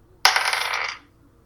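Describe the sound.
A die is rolled during a tabletop role-playing game: a sudden bright clatter that rattles steadily for under a second before stopping abruptly, heard alone without talk.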